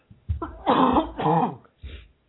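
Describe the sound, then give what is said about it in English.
A man coughs a few times in rough, throaty bursts, with a brief gap between each one and no talking. “Excuse me, got a cough today.”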